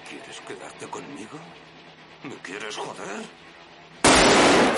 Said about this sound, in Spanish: Wingro apunta a un ren.